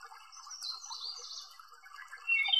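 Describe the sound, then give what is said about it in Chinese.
Birdsong in willow trees putting out fresh buds around an old well: high, quick chirps and twitters run on continuously at a fairly soft level, growing brighter and louder near the end. “可能在树上还有鸟儿在歌唱。”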